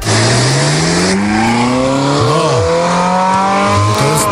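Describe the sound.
A classic Ferrari engine revs hard: a loud, continuous roar whose pitch sweeps up and down through repeated rises, with no talk over it.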